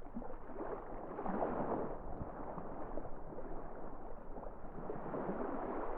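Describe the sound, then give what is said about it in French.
Ocean water for a meditation on the sea, a continuous low rolling roar of waves with slow, gentle swells rising and easing, heard alone without any voice. “Bienvenue pour cette méditation sur l'océan et le rythme de l'eau.”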